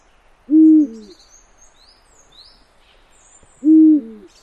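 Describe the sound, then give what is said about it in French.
Eurasian eagle-owl hooting at the foot of cliffs: two deep, loud single hoots about three seconds apart, each a short low boom over a quiet background with faint higher chirps. “Un grand-duc qui chante, on peut l'entendre à presque 1 km, quoi, suivant la météo, bien sûr.”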